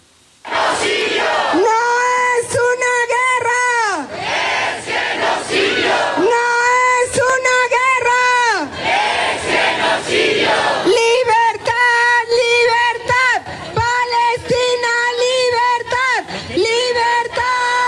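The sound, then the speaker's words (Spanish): Crowd at street protest demonstrations chanting loudly in unison, with rhythmic shouted phrases repeated in bursts and separated by brief pauses. “Pues ahí están las manifestaciones.”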